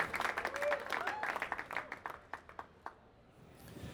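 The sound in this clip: An audience applauds to welcome a guest moderator and guests onto a stage at an evening event. Dense clapping thins to scattered claps and then dies away, with voices mixed in.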